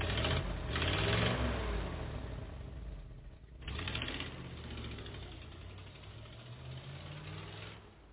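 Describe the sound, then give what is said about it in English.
An old Ford car engine runs with a low, rough rumble, dips briefly near the middle, then roars on steadily before fading at the end. “Oh well, guess I'll fire up the old Ford. You wouldn't happen to have a couple of bucks for gas, would you, Dad?”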